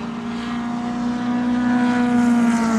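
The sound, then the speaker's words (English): Engines of old Lotus racing cars on a track, heard while the track is blocked from view. A steady, low, droning hum grows slightly louder over a few seconds. “It's blocked off, but you can hear them. A few old Lotuses,”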